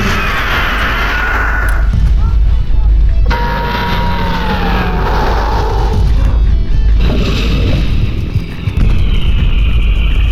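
Giant creature crashing through a cruiser in an audio drama effect: loud, dense rumbling and heavy booms mixed with wailing siren-like tones, sustained throughout with brief breaks.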